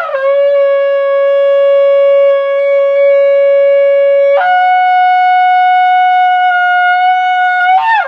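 A shofar sounding a tekiah gadola, one long, loud, sustained horn blast with a rich, buzzy tone that steps up in pitch about halfway, holds steady, then breaks off at the end.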